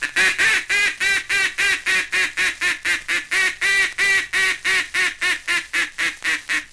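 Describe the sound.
Hunters' duck calls sounded from a blind, a feeding chuckle and a come-back call, make a loud, steady run of many rapid nasal quacks in an even rhythm, with no voices.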